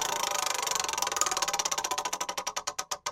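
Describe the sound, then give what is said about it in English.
A spinning wheel ticks rapidly, and the clicks gradually slow and spread apart as it winds down toward a stop. No one speaks. “All right, so spin the first wheel.”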